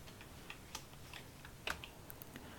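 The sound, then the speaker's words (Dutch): Clicks from the rotary temperature knob of a Philips Airfryer Premium 9867/90 as it turns: a series of faint, sharp, irregularly spaced ticks, with no voices. “Had je dus 180 graden willen hebben, dan draai je 4 klikjes naar links en je bent weer op 180 graden.”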